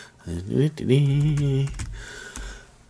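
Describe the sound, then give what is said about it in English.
Typing on a computer keyboard to translate a song title: a few sharp keystrokes, mostly in the second half, with a voice sounding over the earlier part. “Let's have a little click. Clickety-click, clickety-click. Let me translate this.”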